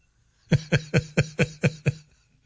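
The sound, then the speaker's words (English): A phone rings with an incoming call as seven quick, evenly spaced buzzing pulses, low-pitched and fairly faint, with near silence before and after. “Heather's calling me on my phone. Have to call me on the other line.”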